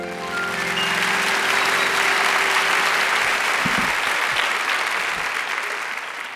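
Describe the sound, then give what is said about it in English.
A live stage-show audience applauds to welcome a guest, dense, steady clapping that swells quickly and holds for about six seconds, beginning over fading musical tones. “So let's bring her out with a warm eTown welcome.”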